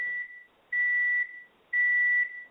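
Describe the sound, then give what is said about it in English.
An alarm beeping: three steady, high electronic tones of about half a second each, evenly spaced and heard alone, the first one cut short at the start. “That's just my alarm for when... Fire alarm? When I've finished making a particularly potent point”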